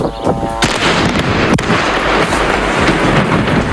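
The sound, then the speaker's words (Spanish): Bombs dropped by Israel falling on Lebanon: a few sharp, loud blasts cutting through a dense, continuous rumble and crackle that fills the whole clip. “Este es el sonido de las bombas que caen sobre el Líbano, lanzadas por Israel.”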